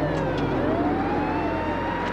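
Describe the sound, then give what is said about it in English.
Three police cars speed toward an overturned pickup truck with sirens wailing. The sirens make slow, rising and falling tones over a low engine rumble. “Three police cars zip toward them as piles of cash cover the concrete around the truck.”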